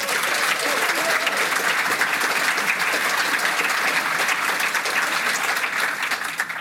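Audience applause at a Waitakere event for a television show's co-creators and its leading actress, thick continuous clapping that holds at a steady level throughout and eases slightly at the very end.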